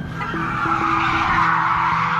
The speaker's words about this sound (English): You can hear a siren and tires screeching in the background.